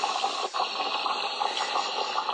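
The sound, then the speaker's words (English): Boiling water releasing steam gives a steady, even hiss that holds at a constant level for the whole stretch, with no voices over it. “Oh, guys, the water is boiling.”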